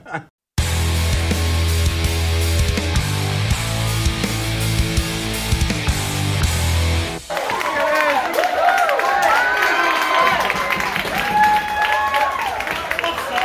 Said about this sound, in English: That was the sound of England drawing first blood in the Euro 2020 final